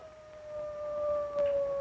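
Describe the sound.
A wolf howls in one sustained, fairly high tone that drifts slightly lower, moderately loud and alone.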